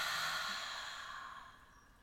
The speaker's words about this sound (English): So let's do that again. Breathe in really deep. Hold it and breathe out.